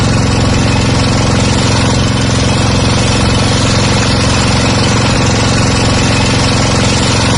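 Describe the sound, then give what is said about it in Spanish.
Boat engine on a boat for a river trip in Laos, a loud, steady, continuous rumbling drone with a rough, vibrating texture and no change in pitch or volume. “¿Qué sonido es el motor de una barca que nos puede llevar hasta Bang Bien”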